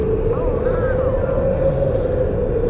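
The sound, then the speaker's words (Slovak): Strong wind blows in a steady, loud, low roar that never lets up, with a sustained droning tone running through it and a faint voice briefly audible early on. “Viac razy sme tu spali po strýkovej smrti. A nikdy takto nefúčalo.”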